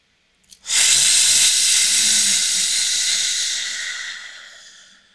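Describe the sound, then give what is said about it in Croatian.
A deep breath is drawn in during a guided breathing exercise, heard as a loud, airy hiss that starts abruptly, holds for several seconds, then slowly fades away. No voices are present. “I još jedan udah. Još dva put može. Udah.”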